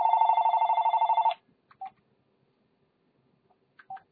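A telephone rings for an incoming caller on a call-in line: one loud burst of rapidly pulsed electronic trill lasting just over a second, followed by two short, faint beeps spaced apart in near silence.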